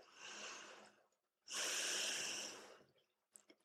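Slow, deliberate breaths during a guided prayer exercise: two long, airy breaths, the second louder and longer, then a few faint small sounds.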